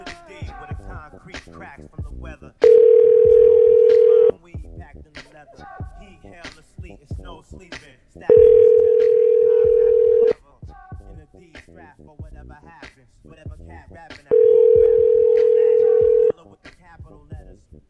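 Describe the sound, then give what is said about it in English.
A telephone ringing tone sounds while calling the Fort Lauderdale Bridge Club: three steady, mid-pitched tones of about two seconds each, evenly spaced, with voices talking in the gaps. “But usually when you call straight back, it actually makes them pick up. I don't know why, so let's try.”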